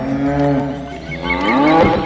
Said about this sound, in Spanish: cuando 7 vacas gordas salieron del agua y se pusieron a comer hierba en la orilla. Después, surgieron 7 vacas muy flacas y se comieron a las gordas.